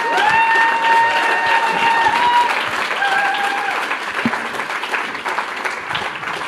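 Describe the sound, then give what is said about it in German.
Audience applause fills a church service: dense, loud clapping from a crowd, sustained throughout and easing off slightly toward the end, with no speech over it. “Bitte gebt ihm einen ganz warmen, intensiven Applaus.”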